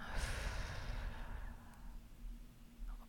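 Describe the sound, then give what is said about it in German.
A slow, deep breath drawn in and let out through the right nostril during an alternate-nostril breathing exercise, soft and airy, faint and unbroken, with no talking. “Also einmal tief einatmen und wieder ausatmen.”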